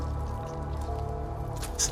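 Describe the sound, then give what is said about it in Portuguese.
A single drip of liquid lands on the floor as a brief, faint high tick near the end, over a low, steady droning background. “começa a pingar um pouco no chão, assim. Eles estão começando a pingar.”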